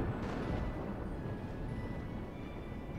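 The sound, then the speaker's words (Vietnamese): Thunder with lightning crashing, heard as a deep, loud, rolling rumble that stays steady and unbroken for the whole stretch. “Trên bầu trời sét lóe lên đùng đùng, kèm theo tiếng sấm long trời lở đất.”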